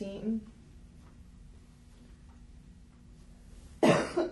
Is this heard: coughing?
yes